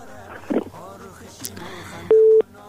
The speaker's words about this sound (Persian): بله، میریم طرف تماس بعدی.